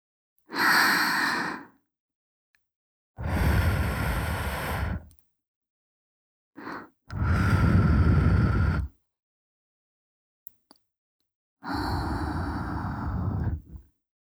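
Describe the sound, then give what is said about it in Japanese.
Soft, breathy blowing of air into the ear for ASMR: four long, gentle puffs and one brief one, each separated by silence. “行くよ。ふうふうしちゃうよ。”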